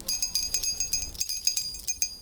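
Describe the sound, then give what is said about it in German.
A school bell rings in rapid, repeated metallic strikes with a bright, high tone, continuing steadily throughout. “Warum läutet jetzt die Schulglocke?”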